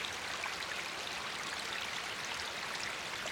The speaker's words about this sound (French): L'eau suit son élan, ruisselante depuis les sommets de la montagne.